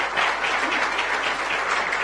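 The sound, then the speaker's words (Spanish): Applause from an audience welcoming a doctor being honored at a recognition event: dense, steady clapping that stays even and loud for the whole moment. “Un aplauso grande al doctor.”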